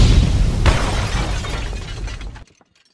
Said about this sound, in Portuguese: Murilo, coloca a bomba.